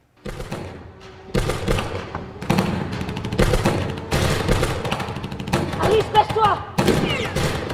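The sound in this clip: Gunfire rings out in several loud, sharp bursts separated by short gaps, each trailing off into a noisy tail.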